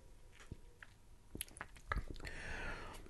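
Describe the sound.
Faint sips and slurps of an ale being tasted, with soft wet mouth clicks and smacks, then a broader airy swish of the beer across the tongue toward the end.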